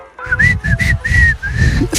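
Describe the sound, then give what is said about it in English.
A person whistles a cowboy tune in a clear, fairly loud run of short melodic phrases with brief breaks between notes, and a low rumbling background sits underneath the whistle. “He walked into a bar whistling a cowboy song.”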